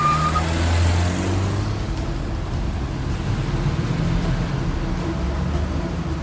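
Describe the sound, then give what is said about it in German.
A Mercedes car speeding off at close to 100 km/h, heard as a steady, loud engine and road roar with deep low rumble that holds fairly even throughout. “Und rast los.”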